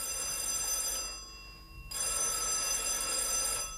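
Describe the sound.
A telephone bell rings in two bursts, a ringing tone, then a short pause, then a second ring. It is set in a rural Lower Bavarian village.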